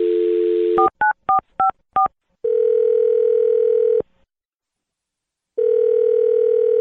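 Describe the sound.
A telephone dial tone is cut off by five quick keypad tones as a number is dialed. A long steady ringing tone follows, then a silent gap, then the ringing tone returns.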